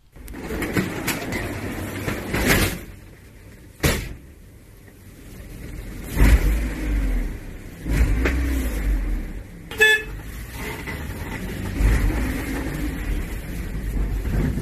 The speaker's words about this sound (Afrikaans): Sy taxi is een van vele wat op en af ry in Kaito Manor se nou strate op die uitkyk vir pendelaars.